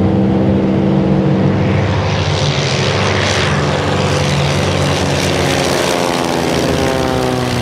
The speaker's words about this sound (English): It's a military aircraft, so it has uh, that special aura about it and sound.